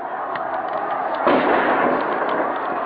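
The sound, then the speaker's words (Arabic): Live gunfire and tear gas grenades fired by security forces, heard as scattered muffled bangs within a continuous rushing roar, with a heavier burst about midway that keeps the noise louder afterward. “الأمن يطلق الرصاص الحي. الرصاص الحي والقنابل المسيلة.”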